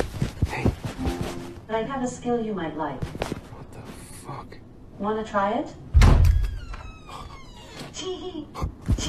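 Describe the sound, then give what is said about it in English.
An oven door opening and shutting, heard as a single heavy thunk among people talking, with softer knocks and clatter around it. “So this is somebody opening and shutting an oven.”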